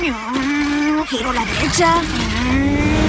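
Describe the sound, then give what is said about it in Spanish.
A BMW car drives past with a steady engine drone whose pitch shifts and dips, alongside tyre and road noise. “Va un BMW.”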